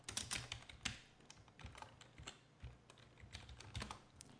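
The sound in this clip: Soft, rapid clicking of a computer keyboard as someone types a software expression, with uneven bursts of many keystrokes.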